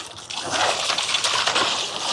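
Steady sloshing and churning of river water as a man wades back to shore through chest-high water on the Kenai River after netting a salmon, a continuous rushing wash with no talk.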